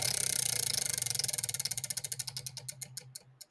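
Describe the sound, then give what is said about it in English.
A prize wheel spins, its pointer ticking in rapid, even clicks that gradually slow and spread apart until the wheel nearly stops, all fairly faint. “Yeah, let's spin that here wheel. Here we go.”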